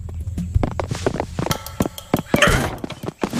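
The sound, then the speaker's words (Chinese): A door is kicked in during a night-time cartoon break-in, heard as a rapid series of sharp thuds and bangs, with loud knocking impacts crowding together near the middle. “这也太猖狂了吧，直接踹门进啊，够刺激。”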